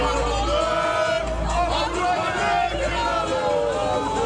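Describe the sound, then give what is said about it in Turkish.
Galatasaray fans chanting slogans in Stockholm while celebrating a championship: loud, continuous massed voices that rise and fall together over a babble of crowd noise. “İsveç'te Stockholm'de Galatasaray bayrağı dalgalandı. Sarı kırmızılı taraftarlar sloganlar attı.”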